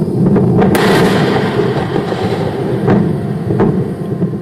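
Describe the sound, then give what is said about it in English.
A SpaceX Falcon rocket exploding on its launch pad during fueling gives a loud, continuous low rumbling roar, broken by a few sharp cracks. “That's the sound of a SpaceX Falcon rocket exploding during fueling on the launch pad last September.”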